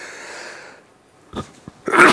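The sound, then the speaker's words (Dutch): A sneeze: a couple of short, sharp breathy bursts lead into a loud, broad burst at the end, with no talk. “Ik moet even niezen hoor.”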